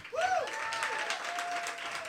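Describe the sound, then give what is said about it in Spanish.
Audience applause greeting a guest: a steady, even wash of clapping hands with a thin tonal whistle running through it. “y aplausos público lunero”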